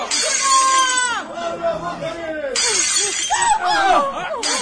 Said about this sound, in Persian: اولی شیشه رو من میشکنم.